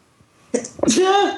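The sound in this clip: A single human sneeze: a brief sharp lead-in, then a loud burst that trails into a voiced, tonal tail.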